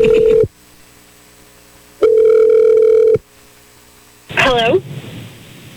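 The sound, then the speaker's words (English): Ringback tone of an outgoing phone call as it is dialed: two long, steady, low-pitched tones separated by silence. A brief voice then answers over a faint hum. “I'm dialing you right now.”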